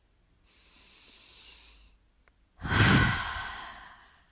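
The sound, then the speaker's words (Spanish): A deep breath: a soft, airy inhale, a short pause, then a louder, heavier exhale like a long sigh that fades out slowly. “Detén tu mente. Respira.”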